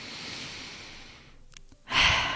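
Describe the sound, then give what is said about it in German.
Deep breath: a long, soft, airy inhalation fades out, and after a short pause a louder, breathy exhalation follows. “heute lade ich dich wieder mal ein, um einfach einen tiefen Atemzug zu nehmen, was ich mir selber auch gesagt habe”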